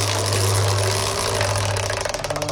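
Game show prize wheel spinning, a steady noisy whir that turns into rapid ticking clicks toward the end, the clicks spreading out as the wheel slows.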